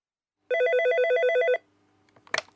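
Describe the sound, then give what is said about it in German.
A telephone rings once with a warbling electronic trill lasting about a second as a caller phones a language school. Silence follows, then a brief clatter. “Mina möchte sich für einen Deutschkurs anmelden und ruft die Sprachschule an.”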